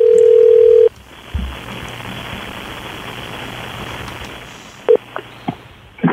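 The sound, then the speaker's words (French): A telephone ringing tone plays as a steady mid-pitched beep lasting under a second, followed by soft hissing line noise, a few faint clicks and one more brief beep. “On va l'appeler. Donc, on l'appelle. Il s'appelle Vincent. Ça va sonner.”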